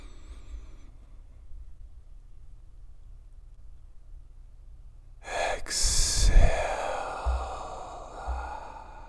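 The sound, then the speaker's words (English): Slow, deep breathing during a guided meditation: after several seconds of near silence, one long, airy inhale swells loudly, then softer breath sounds trail off. “Breathe slow with me. Inhale.”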